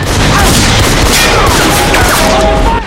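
Heavy gunfire with shotgun blasts as a soldier is blown back down a crane ladder, a dense, continuous, loud barrage of booming shots with no pauses.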